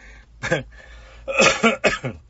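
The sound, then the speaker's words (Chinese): A person coughing: one short cough, then a quick run of several harsh, voiced coughs, moderately loud and close together. “哎，我都咳嗽了”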